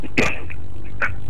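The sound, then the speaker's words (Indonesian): Two short, harsh coughs from a man, one near the start and one about a second later, over a steady background hiss. “Oke, waduh, masih batuk-batuk ini.”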